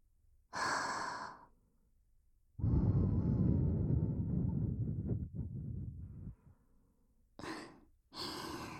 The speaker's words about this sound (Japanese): 耳垢を吹き飛ばしているんですよ。はい、そうです。お耳のお掃除をしているだけですから。